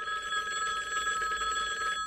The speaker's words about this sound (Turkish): Saatler sonra bir telefon geliyordu.